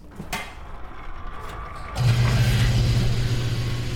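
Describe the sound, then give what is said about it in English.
An electric fuel pump pushes biodiesel straight into a vehicle's tank. It starts midway with a sudden loud onset and then holds a steady, low mechanical hum. Fainter clanking and rattling come before it. “We can pull right in, and we just pump it right directly into our tank. So here goes. It's going to make kind of a loud noise.”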